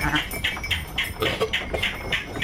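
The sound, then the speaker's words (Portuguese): Sheep from a flock bleat at a pastoral spot where the ewes are milked, many short, nasal calls repeating in quick succession and overlapping. “Não muito longe onde António ordenha as ovelhas do rebanho”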